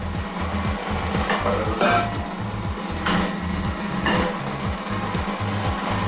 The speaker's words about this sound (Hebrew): אני פותחת את הבצק קצת, רואות יוצא עשן, כדי שהוא טיפה יתקרר, ואז אני מתחילה להוסיף את החלמונים אחד-אחד.